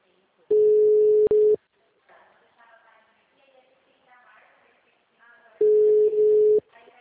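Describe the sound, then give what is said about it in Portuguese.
Telephone busy signal: two long, steady mid-pitched beeps, one near the start and one near the end, with a voice talking quietly between them. “Alô? Alô? Oi, tudo bem, Maria? O número está ocupado.”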